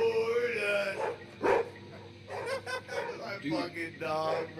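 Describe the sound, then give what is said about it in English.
A dog barks in short, scattered bursts, mixed in with people talking. “Is that a dog barking?”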